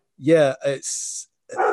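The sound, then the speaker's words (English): A pet dog gives two short, tonal barks in quick succession, and a person then starts speaking. “That's Mickey, my dog. He always makes a guest appearance whenever I do anything like this.”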